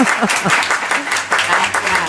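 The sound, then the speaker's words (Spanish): Applause from a studio audience at a Spanish-language talk show, dense steady clapping that fills the whole clip at a loud, even level. “Dele un aplauso, hombre, para que empiece animada.”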